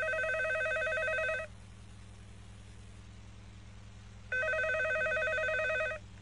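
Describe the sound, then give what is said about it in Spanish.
Telephone ringback tone heard while calling a modelling agency about a casting: two long, bright electronic ringing bursts separated by a few seconds of pause, over a steady low hum and hiss. “llama a una agencia de modelos para presentarse a un casting. Responde la secretaria.”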